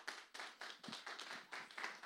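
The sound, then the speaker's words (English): Audience clapping to vote on a show's length: a faint, steady run of many quick, evenly spaced claps that form a brisk rhythmic patter. “Is there anybody who wants shorter? Clap. All right, whoever gets the loudest clap, that's what I'm going to do.”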